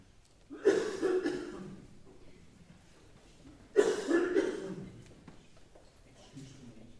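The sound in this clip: Someone coughing during a church service after inhaling something: two harsh, raspy bursts of coughing, each fading out, then a fainter rough sound near the end.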